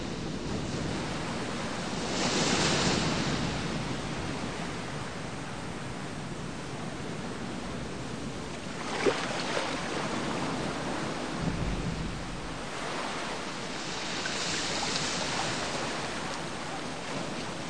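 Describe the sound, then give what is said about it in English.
Waves lapping against a flat sandy beach make a continuous soft wash of surf, with a few gentle swells rising and falling through the long stretch and no voices. “Waves lap against a beach, where a man lies face down and spread-eagled on the flat sand.”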